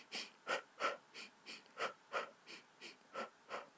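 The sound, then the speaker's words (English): A runner breathes in a steady rhythm, inhaling over two steps and exhaling over two. The breaths are many evenly spaced, airy puffs at an even tempo. Each puff is short and breathy, and no voice is heard. “Breathe in on 2 steps, breathe out on 2 steps. So it goes like this.”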